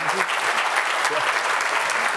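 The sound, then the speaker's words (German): Audience applause after volunteers help on stage at a presentation, a steady, dense wash of clapping that holds at an even level for the whole clip. “Danke für den Applaus.”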